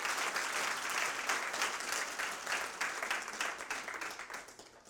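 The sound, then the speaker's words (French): A church audience applauding God during a sermon, a steady wash of many hands clapping, faint and continuous, thinning slightly toward the end. “Le tombeau est vide, est-ce qu'on peut acclamer Dieu pour son œuvre?”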